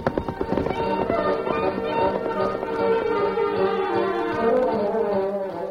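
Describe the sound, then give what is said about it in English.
Hoofbeats of a horse galloping hard away, a rapid run of thudding strikes blended into loud, swelling orchestral music that plays throughout. “The Lone Ranger and Tonto rode hard in opposite directions.”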